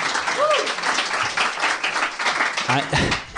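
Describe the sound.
Audience applause and cheering at a live show: a dense, steady wash of clapping that fills the whole stretch, with voices mixed in.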